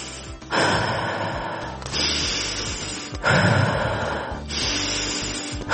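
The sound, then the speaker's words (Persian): Slow, deep breaths in and out, taken as a stress-calming exercise: a few long, airy, noisy breaths follow one another steadily with no talking. “3 نفس عمیق بکش.”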